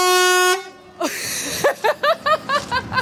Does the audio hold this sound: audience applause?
no